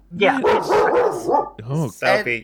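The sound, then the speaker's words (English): A dog barking and yipping in a few sharp bursts, mixed in with people talking. “Sorry, that's my dog.”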